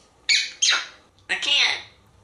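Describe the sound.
Parrot squawking in three harsh, raspy bursts: two close together, then a short pause before a longer third call. Each cry is loud and shrill and fades off at the end.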